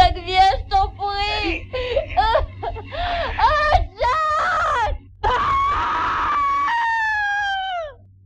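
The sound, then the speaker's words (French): A person screams and wails in a run of short, strained cries with bending pitch. These build to a long sustained scream that slides downward and fades at the end, over a low steady hum. “Oui, oui, ça, c'est un cri.”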